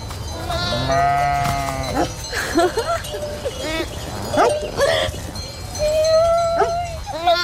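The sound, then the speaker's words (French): Sheep bleating, ewes calling for their lamb with low, wavering calls; several bleats follow one another and overlap, rising and falling in loudness. “Quand elles appellent leur agneau, elles ont un truc plus grave.”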